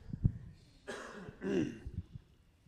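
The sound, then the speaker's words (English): A speaker clears their throat during morning announcements, two faint, rough bursts in quick succession with a few soft knocks and breaths around them. “Excuse me, I got a little bit of something in my throat.”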